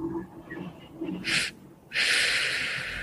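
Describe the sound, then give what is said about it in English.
A release breath: a medium inhale through the nose, then a short puff and a long, steady, loud exhale out through the mouth, with no talk. “it's a medium inhale through the nose and then a short and long breath out through the mouth. So it's like this.”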